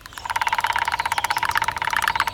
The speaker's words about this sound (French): Les deux pivers martèlent le tronc avec leur bec à une allure folle.